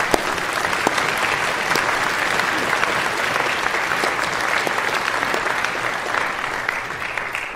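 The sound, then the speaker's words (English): Applause in a church for a couple: dense, sustained clapping from a crowd, steady and loud for about seven seconds without a break. “Will you stand right there? Give them a big hand.”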